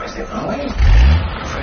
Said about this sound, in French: On est confortablement installé à l'intérieur de son véhicule spacieux, typique de la capitale britannique, ces fameux black cabs très larges, très hauts sur roues